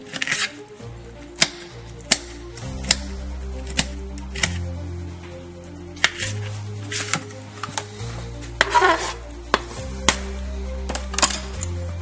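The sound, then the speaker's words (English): A knife cuts a jalapeno with many sharp, irregularly spaced taps against a board, each a short crisp click, with music playing softly underneath. “And then I grab a jalapeno and just cut it like this.”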